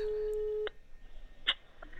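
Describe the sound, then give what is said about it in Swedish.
A steady telephone call tone sounds while someone rings a friend. It holds for under a second and then cuts off, and a few faint clicks and soft sounds follow. “Vi kanske ska ringa upp henne”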